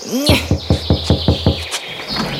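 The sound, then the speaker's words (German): Knocking on a gate: several sharp, evenly spaced knocks over a low steady hum, with a brief chirping tone just before the first knock and a brighter ringing tone after the last. “Wir klopfen jetzt gleich mal.”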